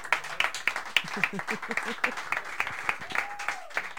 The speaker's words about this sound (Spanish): Fuerte el aplauso.